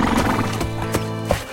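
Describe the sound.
A horse whinnies in a loud, rippling neigh that holds through the whole moment. A few sharp hoof knocks come through alongside it.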